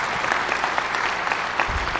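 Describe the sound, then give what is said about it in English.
Audience applause for a third-place team at a prize giving, steady clapping at moderate volume with no talk over it. “They already bailed, but we gave them a prize, so we'll just clap for them because they were there.”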